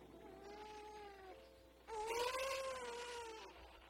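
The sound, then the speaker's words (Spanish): A hungry baby cries in two long, wavering wails, the second louder and slightly higher, faint overall. “Pero a veces el hambre me despierta y lloro.”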